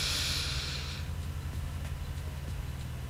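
One deep breath in, a breathy hiss lasting about a second that then fades, heard alone over a steady low hum.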